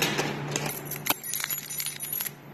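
Keys jangle in a busy run of bright metallic clinks and chinks for a couple of seconds, with one sharper clink near the middle, easing off slightly toward the end.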